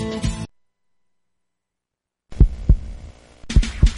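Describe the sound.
A heartbeat sound effect from a Punjabi Radio USA station jingle: after a short opening burst and a gap of silence, deep low thumps arrive in two quick pairs, lub-dub style, under a faint hum.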